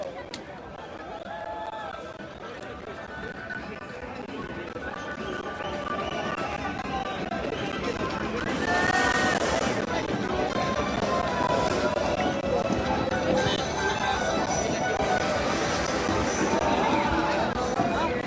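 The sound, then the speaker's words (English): A crowd of protesters marches in the street, a continuous din of footsteps and voices with people talking throughout. The noise swells louder about halfway and stays loud. “Here comes the march.”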